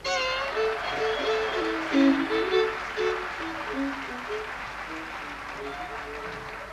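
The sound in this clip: Applause from a Tokyo audience welcoming bluegrass banjo player J.D. Crowe, a steady wash of clapping that holds at an even level with a voice sounding over it.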